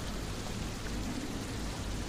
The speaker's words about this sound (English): but the rain continues